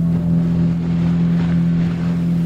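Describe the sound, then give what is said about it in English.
Steady drone of a motorboat engine on the water in a mangrove forest on Cambodia's southern coast, a constant low hum with a strong tonal note and breezy noise, no voices. “I head out in a motorboat in the company of three Cambodians”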